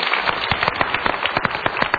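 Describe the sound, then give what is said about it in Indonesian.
Applause from a talk-show audience: a dense, steady patter of many hands clapping throughout, with no speech over it. “Tepuk tangan atas pilihan Anda.”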